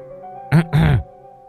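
A woman clears her throat in two short, rough voiced bursts close together, heard over a quiet, steady background tone.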